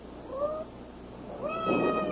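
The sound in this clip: A cat meows twice, soft and faint: a short cry first, then a longer, slightly louder meow after a brief pause.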